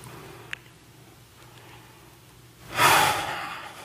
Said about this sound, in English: Deep breath.